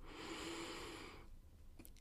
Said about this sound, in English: We will begin with one deep breath, inhale,